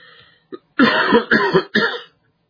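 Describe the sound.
Three loud, harsh coughs in quick succession from a person with a persistent cough, preceded by a short catch of breath, each burst rough and throaty before the sound stops.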